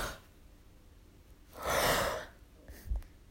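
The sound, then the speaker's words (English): A person takes a slow, deep breath, a soft rush of air that swells and fades, followed by a fainter, shorter breath; quiet overall with no talking. “let's take this moment to clear our minds and take a deep breath”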